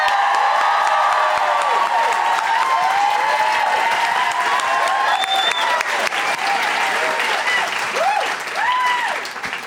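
An audience applauds and cheers as three guests are welcomed onto the stage at a live show. Loud, sustained clapping mixes with repeated rising whoops and cries, then eases slightly near the end.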